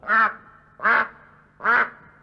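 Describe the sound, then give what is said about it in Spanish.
Duck quacking, three loud, nasal quacks evenly spaced, each short and sharp with brief silence between them. “Pero acertó a pasar por allí el señor pato.”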